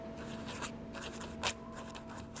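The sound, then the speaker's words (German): Faint pen scratching on a paper envelope while an address is written and a sweeping line is drawn underneath, a few soft bursts of friction over a steady low hum. “Scarborough, schreibt Mrs. Flanders auf den Umschlag und wirft eine schwungvolle Linie darunter”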